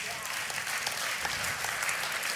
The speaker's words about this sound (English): Yeah, we can clap for that.